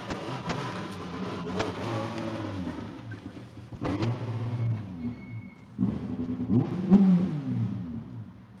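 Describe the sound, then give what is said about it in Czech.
Rally car engine as the car arrives at the finish of a stage, a steady throaty drone with surges of revving, the loudest bursts in the second half. “Posádka 33 právě přijíždí do cíle.”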